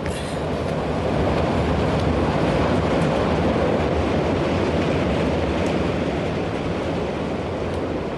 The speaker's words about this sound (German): Da rauscht von links der Schnellzug heran.